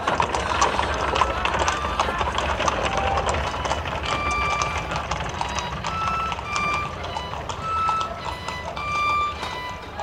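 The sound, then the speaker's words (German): A horse-drawn cab drives off with a dense, continuous rolling clatter. Short high squeaks recur throughout, and the level stays steady from start to end. “Georges Duroy rührte sich nicht in der Droschke aus Angst vor einem Skandal. Dann fuhr der Wagen los, von hohen Gelächter verfolgt.”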